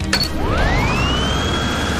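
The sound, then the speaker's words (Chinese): A cold-wind blowing machine starts up with a short click. Its motor whine then climbs steeply in pitch over about a second and settles into a steady high tone above constant rushing noise. “这都要感谢我发明了这台伟大的寒风机。启动吧，小猫咪们。”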